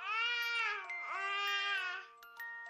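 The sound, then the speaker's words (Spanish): A baby vocalises with a drawn-out, high, tonal wail. The pitch dips in the middle, and a few short sounds follow. “Para algunas personas, el balbuceo de un bebé no significa gran cosa, aunque eso no es necesariamente cierto.”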